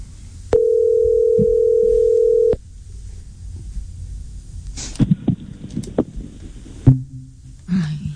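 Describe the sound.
A telephone dial tone sounds after a call is answered and immediately hung up. It is a steady, low, even tone lasting about two seconds, followed by faint clicks and handling noises.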